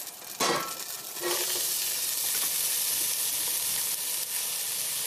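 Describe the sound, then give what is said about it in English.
Onion sizzles as it hits extra virgin olive oil heated in a pan over medium heat. A sharp hiss bursts in, then a second surge follows, settling into a steady, loud, crackling fry that continues to the end. “I'm going to start this on about medium and let it get hot, and then we're going to go ahead and put the onion in. You hear that?”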